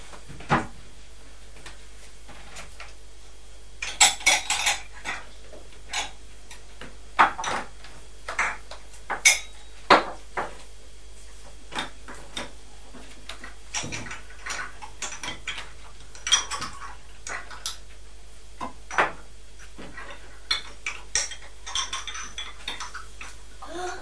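Eggs being placed into an egg box and egg cups in a kitchen, a quiet, irregular series of many light clicks, taps and clacks of shell against cardboard and crockery.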